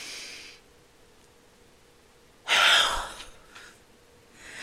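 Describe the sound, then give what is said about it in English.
A deep breath taken in and let out during a guided breathing exercise: a faint airy rush first, then one loud, forceful exhale that fades, with another breath starting at the end. No one speaks. “So we're gonna take the biggest deep breath in and then just like let out the, like, just let it out, okay? So the biggest inhale.”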